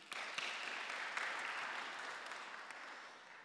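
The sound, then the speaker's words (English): Audience applause for a woman about to give a Bible reading, steady faint clapping that holds evenly for a few seconds before tapering slightly. “Round of applause for Sarah.”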